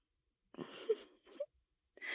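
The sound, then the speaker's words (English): A person snoring faintly: a couple of wheezy, breathy snores with a soft moaning tone, followed by another beginning at the very end. “I was not snoring. Don't be a bully. You are kind of snoring”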